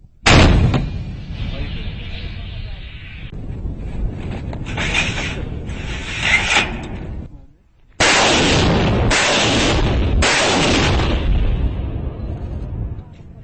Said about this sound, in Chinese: 叙利亚政府军在巴尔米拉到戴尔祖尔高速公路旁设立了密集的据点，每隔15分钟左右向前线阵地实施一次炮击。